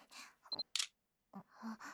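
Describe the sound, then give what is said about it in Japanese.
A camera takes a photo: a brief high electronic beep is followed by a quick shutter click. Both are quiet, with soft breathy vocal sounds before and after. “写真撮られた。最低。”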